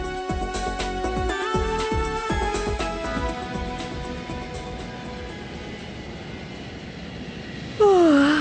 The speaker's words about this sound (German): Bei dem Lärm hier im Flugzeug. Der Lärm kommt von den Triebwerken.